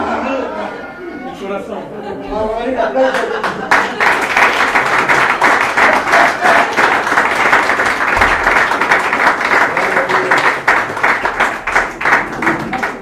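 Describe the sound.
Congregation applause during a church sermon: after a few seconds of talk, many hands break into loud, steady clapping that carries on to the end, with some chatter mixed in.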